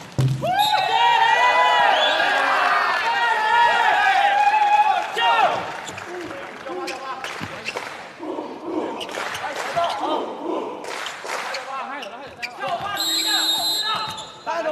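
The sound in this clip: A setter makes a powerful left-handed jump serve in a school volleyball match. Ball strikes and court thuds sound amid steady crowd noise and cheering, while a commentator talks over most of it.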